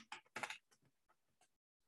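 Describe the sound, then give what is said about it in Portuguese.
Soft typing on a computer keyboard as a search term is entered: irregular, quick clicking keystrokes in small clusters, quiet and unaccompanied by speech, trailing off into near silence. “vou digitar aqui, ó, Faster EFT”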